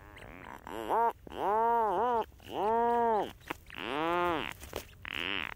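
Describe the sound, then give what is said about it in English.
Rhinoceros auklets and their chicks call on an island wildlife refuge in the Strait of Juan de Fuca off the Pacific coast, giving a series of long, loud, harmonic groaning calls, moo-like and drawn out, separated by brief pauses. “These are several rhinoceros auklets with their chicks, recorded at Protection Island National Wildlife Refuge in the Strait of Juan de Fuca off the Pacific coast.”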